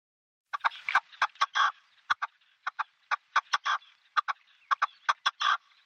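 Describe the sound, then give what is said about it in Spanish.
Red-legged partridge calling in its natural habitat: many harsh, chuckling clucks in quick, irregular bursts, some short and sharp, others drawn into longer grating phrases, standing alone against a quiet background. “Este sonido es el de la perdiz roja en su hábitat natural, en el campo, en la dehesa, en los sembrados de cereal.”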